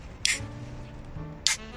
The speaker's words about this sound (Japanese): プシューからいきますか。